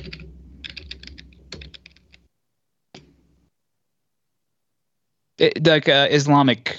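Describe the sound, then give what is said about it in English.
Typing on a computer keyboard, a quick run of light clicks for about two seconds, then a lone click after a pause, followed by a person talking. “I gotta see where you, I'm gonna type it right here.”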